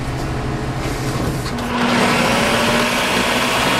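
A food processor slices vegetables in a kitchen with a loud, steady motorized whir. Partway through, the grinding grows more intense and a sustained humming tone settles over it.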